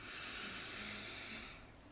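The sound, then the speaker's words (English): A slow, deep breath drawn in during a guided mantra meditation, a soft, steady airy hiss lasting nearly two seconds before tapering off at the end. “So let's take one more nice deep breath in”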